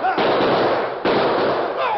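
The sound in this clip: Gunshots in a Western shootout between a sheriff's posse and outlaws: a few sharp, loud blasts, each trailing off into a noisy roar.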